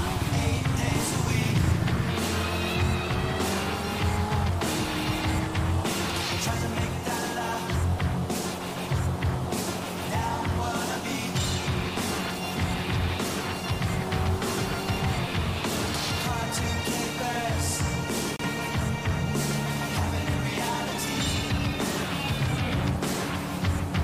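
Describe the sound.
A Corvette C8 sports car drives in a video game, with a sustained, humming engine drone that holds steady tones throughout and is layered with other game sounds.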